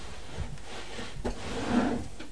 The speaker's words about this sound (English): Look in that drawer and see if you need some socks in that drawer.